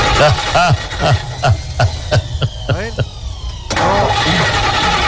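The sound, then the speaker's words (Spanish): A car engine cranks over and over without catching, a fast, even run of many mechanical pulses that pauses briefly and then resumes, with voices talking over it. “Parece que hay serios problemas, parece, para poder encender el vehículo”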